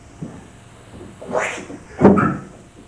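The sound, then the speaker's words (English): A cork pulled out of a bottle gives two squeaky bursts, the second louder and sharper than the first. “And pull the cork out. I got my cork out.”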